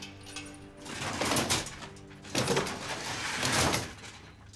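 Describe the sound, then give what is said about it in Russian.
A metal grate being unlocked and swung open: a few metallic clanks and rattles followed by scraping, creaking movement, with a low hum in the background. “Отпирает решетку, заходит в комнату.”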